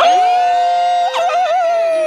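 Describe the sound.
A storyteller voices a dog's cry, a sustained, fairly high howling tone that holds steady, then wavers through a few warbling bends before settling back to an even pitch.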